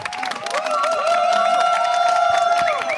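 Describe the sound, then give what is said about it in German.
Applause from a live audience welcomes an author, a steady bed of clapping that builds after the first second and holds, with cheering voices and whistle-like whoops rising over it. “Ein tosenden Applaus hier aus dem Publikum live”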